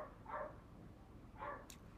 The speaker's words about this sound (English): there's a dog going crazy outside. Hopefully you can't hear it, but let me close the window.